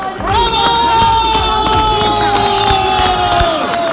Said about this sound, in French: À chaque arrivée d'un nouveau groupe de réfugiés, depuis une semaine, la même scène se produit. Des Munichois accoudés aux barrières posées par la police les applaudissent.